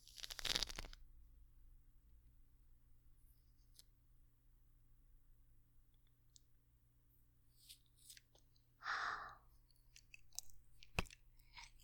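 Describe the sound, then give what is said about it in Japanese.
Chewing on a mandarin orange, faint and moist: a few short, soft bursts of biting and squishing separated by long quiet stretches. “みかんをちょっと食べきるのに せっかくだから、録音回したまま食べまーす。”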